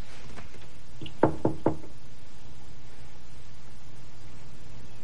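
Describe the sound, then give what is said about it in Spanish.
Three quick knocks on a door, sharp and evenly spaced, moderately soft over a low background hum, followed by quiet. “Golpea una puerta.”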